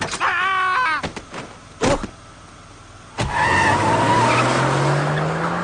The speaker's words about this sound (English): I must hasten home to play my new carjacking game. Give me your ride, jerk!